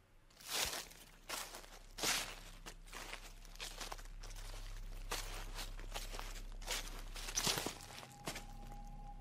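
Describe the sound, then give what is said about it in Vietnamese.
Footsteps rustling through a garden at night, a slow irregular series of soft crunching steps, faint over a steady low hum. “có tiếng chân của ai đó đang sột soạt đi lại ở ngoài vườn”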